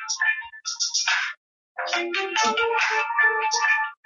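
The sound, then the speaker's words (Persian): Mobile phone ringtone: a bright electronic melody with rapid note changes in two phrases separated by a short pause, with no talk over it. “معذرت می‌خوام، من این تلفن رو قطع کنم.”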